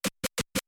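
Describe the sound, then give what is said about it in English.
A chirp scratch on a DJ turntable record: five short, sharp bursts of scratched sound in a quick, evenly spaced rhythm, cut cleanly to silence between each one, heard alone with no talking. “That is called a chirp.”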